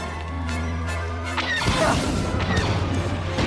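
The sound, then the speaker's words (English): A sci-fi blaster handgun fires, a sudden loud crackling burst midway that cuts in over a steady hum and then rings out with gritty noise. “It was a distinctive blaster from two other blaster sounds, wasn't it?”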